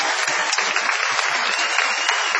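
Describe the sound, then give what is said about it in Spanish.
Audience applause at a live comedy show in Madrid, a steady, dense wash of many hands clapping throughout, fairly loud and unbroken. “Vamos a aplaudir especialmente a Luis Piedrahita. Sí, por favor. Bravo, Luis.”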